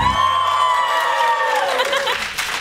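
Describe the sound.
Live studio audience cheering and whooping, a loud, sustained burst of many voices with a high whooping tone that slides downward near the end.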